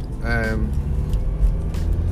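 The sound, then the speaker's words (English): Car driving on the road, giving a continuous low engine and road rumble that stays fairly even throughout. “So I just thought, well, I'll do a bit of a podcast while I'm driving back, see how we go.”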